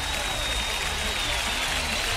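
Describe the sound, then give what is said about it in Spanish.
An applause sound effect: steady, even clapping that holds at a constant level for the whole moment, with a voice over it. “le ponemos un aplauso”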